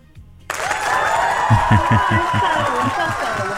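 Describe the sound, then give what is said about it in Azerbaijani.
Applause sound effect for the winner of a radio quiz. It starts abruptly after a brief quiet moment and becomes steady, dense clapping with voices mixed in and a rhythmic low thumping underneath. “Gəlin, indi baxaq görək sizin üçün alqış səslənir ya yox?”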